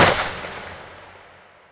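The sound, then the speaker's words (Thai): A single gunshot as a bodyguard's gun goes off by accident, a sharp, loud blast with a long fading tail. “โจเตรียมแบล็กเมย์รอนแต่ด้วยอุบัติเหตุปืนของบอดี้การ์ดลั่น”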